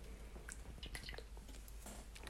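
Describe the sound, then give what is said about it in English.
Quick gulping of someone chugging a cup of coffee: a faint run of wet swallows and squishing mouth noises in close succession, with no talk. “That's me chugging this coffee, trying to get it down, because it doesn't taste good.”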